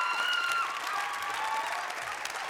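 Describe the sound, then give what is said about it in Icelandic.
Audience applause at a music event, dense steady clapping with a bright crackling texture at moderate loudness, with a few faint whistles over it and no break. “gefa þeim gott klapp”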